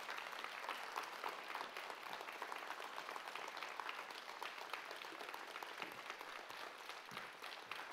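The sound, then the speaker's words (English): Audience applause welcoming a staff sergeant at a Memorial Day weekend gathering: dense, steady clapping from many hands that holds evenly at full strength for about eight seconds, with no voices standing out. “Would you please stand? Give him a big hand.”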